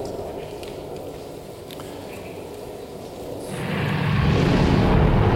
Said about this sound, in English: Let's see some real space debris. So this is a real rocket launch camera on the rocket.